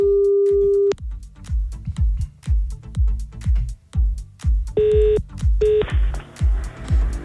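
Telephone keypad tones as a number is dialed to call someone back: one long steady beep, then two short beeps later on, all over a pounding rhythmic music beat.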